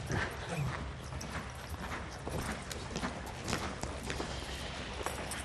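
Horse hooves clip-clopping in a steady stream of many rhythmic hoofbeats at an even, moderate volume.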